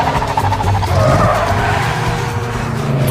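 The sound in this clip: Car tires skid and squeal as the vehicle drives off, a continuous loud screech over engine roar lasting about three seconds, with no talking.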